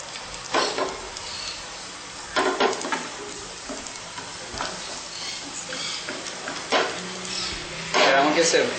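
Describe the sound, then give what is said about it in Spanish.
Garlic frying in a pan, a steady crackling sizzle broken by a few louder bursts of stirring. “Luego vamos a mezclar, vamos a poner el ajo. Y fritamos.”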